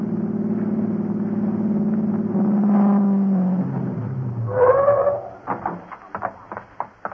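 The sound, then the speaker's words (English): A car is started and driven off at speed in a race across town. A steady low engine drone builds into revving, followed by a few short, sharp bursts of sound. “replace the two wires you disconnected and get Larry's car started. Then you use every shortcut you know to Fran's house. Fran's life and your future are in the balance. You have to win this race”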